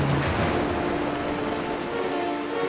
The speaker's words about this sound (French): Les vagues roulent contre les immenses falaises.